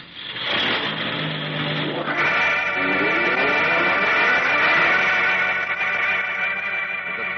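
Engine roar of a truck driving off at speed, a radio drama effect: loud, steady revving that shifts in tone after about two seconds and holds strong to the end, with no voices.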